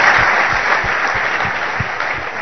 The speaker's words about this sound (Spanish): Un aplauso para ellos.